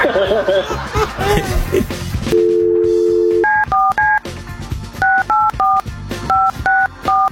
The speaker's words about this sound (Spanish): vamos a marcar